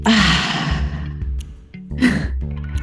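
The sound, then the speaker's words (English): Deep breath drawn in and let out: two long, airy, breathy rushes, the first sustained and fading, the second shorter and strong, with no talking. “we end taking a deep breath together. So inhale, let it out.”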